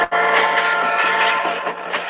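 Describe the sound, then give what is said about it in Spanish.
A train passing: a loud, steady rumble with a tonal hum that runs the full two seconds and eases off slightly toward the end. “El tren. Mm. Ahora no le tocó. El tren.”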